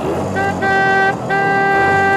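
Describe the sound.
An old motor car drives off with a loud engine and a few sustained horn-like tooting tones in bursts, separated by short gaps, over a low rumble.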